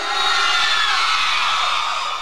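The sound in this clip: Women in a crowd at a lively party night shout and cheer, forming a dense, continuous high-pitched roar of overlapping screams that stays loud throughout.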